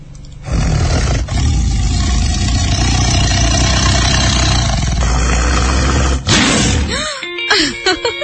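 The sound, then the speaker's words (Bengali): A tiger roar, played as a rallying cheer for a national cricket team, rumbles loud and sustained for about six seconds. Brief talk follows at the end. “আর গর্জনটা আর একবার শুনেই আসি, তাই না?”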